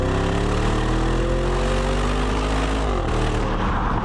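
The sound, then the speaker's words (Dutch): Deep engine drone from a luxury SUV's 4-litre, 550-horsepower V8, holding a loud, steady rumble. Its pitch climbs gently, then drops shortly before the end. No voices. “Ze hebben nu ook een hybride. Die stoot natuurlijk minder CO2 uit, dus is goedkoper. Maar je hebt ook de V8 en daar hebben we geluid van.”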